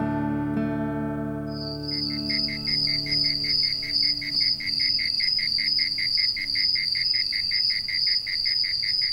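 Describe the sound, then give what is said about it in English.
Layered insect sounds on a warm late spring evening: after a brief opening of low tones, a high, rapid, steadily pulsing trill of chirping insects sets in and continues evenly to the end. “The layered sounds of insects on a warm late spring evening have often been compared to a symphony.”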